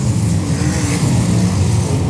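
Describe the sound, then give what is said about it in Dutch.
Race car engine driving a lap around a circuit, a loud, steady, unbroken roar that holds evenly throughout with no clear gear changes. “Dit geeft de gelegenheid aan Sander om die auto eventjes door de ronde te slingeren.”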